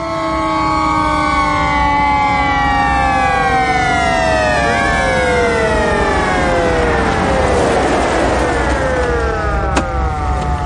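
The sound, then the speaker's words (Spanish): Police patrol car sirens wail along a road lined with oil pumpjacks, several overlapping tones sweeping up and down together, loud and continuous throughout with no talk. “Los coches patrulla se acercan entre las extractoras de petróleo que jalonan el camino.”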